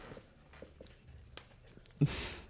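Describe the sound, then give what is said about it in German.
Pen or pencil writing on paper gives soft, faint scratching strokes through a quiet stretch, with a sharper, louder sound just before the end. “Ich schreibe echt auf, was ich sehe.”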